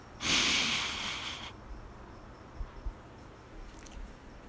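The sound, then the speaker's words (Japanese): A person sniffs deeply into a pet's belly: one long, breathy, hissing inhale lasting over a second. It is followed by near silence with a few faint soft bumps. “ちょっと吸ってみましょう。”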